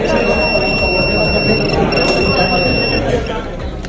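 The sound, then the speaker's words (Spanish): Alarm of an electronic device detector used during exams: a steady, high-pitched electronic tone, briefly interrupted near the middle, over dense background noise. It stops about three seconds in. “que realizan barridos aleatorios para detectar el uso de dispositivos electrónicos y de transmisión de datos, lo que es copiar basándose en la inteligencia artificial. En caso de que se localice uno, suena esto.”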